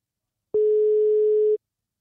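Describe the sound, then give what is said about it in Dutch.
A single steady telephone ringing tone, about a second long and mid-pitched, sounds alone between stretches of silence as a call is placed. “we gaan hem gewoon even bellen.”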